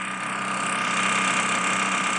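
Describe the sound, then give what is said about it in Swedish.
Construction noise from renovation work in the premises next door to a bank, coming through thin walls: a loud, steady grinding drone that runs unbroken through the whole clip with no pauses. “Då visar det sig att någon sorts byggarbete som pågår i precis rummet bredvid. Det låter så här.”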